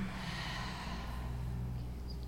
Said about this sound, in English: Part your lips and exhale through the mouth.